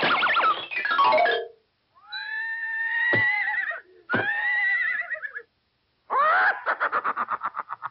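The cartoon horse Rocinante neighs in a Disney Goofy sports cartoon. Several loud whinnies come in separate bursts with short silences between them, and the last ends in a rapid, quavering series of pulses.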